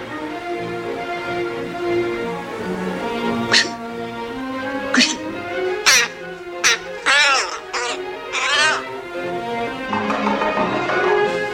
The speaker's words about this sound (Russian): Открывается окно, влетает ворона.